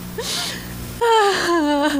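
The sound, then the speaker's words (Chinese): A woman crying in a dramatic scene: after a quieter opening, a loud, sustained voiced wail breaks out and wavers as its pitch slowly falls. “你看看你哭什么嘛？”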